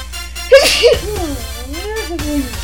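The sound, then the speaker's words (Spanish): A sharp, loud sneeze from a woman who is still a little sick, bursting out in two quick gasping pulses over a steady low background hum. “Ay, permítame tantito que voy a estornudar.”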